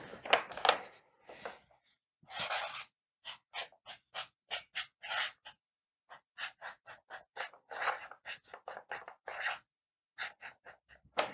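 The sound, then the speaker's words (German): Pen strokes writing over a picture: many short, scratchy strokes in irregular bursts, faint and separated by clear pauses. “Ich versuche es mal drüber zu schreiben”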